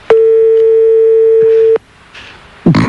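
Ringing tone of a telephone call placed to the production office next door: one long, loud, steady mid-pitched tone lasting about a second and a half, then quieter noise and a brief burst of sound at the end.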